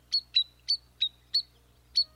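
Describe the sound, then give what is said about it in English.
Spotted sandpipers call in six short, high, sharp peeps. The peeps come in a quick, slightly uneven series and stand out clearly over a faint low hum. “Here they come, spotted sandpipers.”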